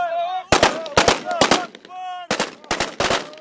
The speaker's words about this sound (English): coast between the oil port of Ras Lanuf and the Gaddafi stronghold of Sirte is the scene of explosions and gunfire, charging rebels and circling fighter jets.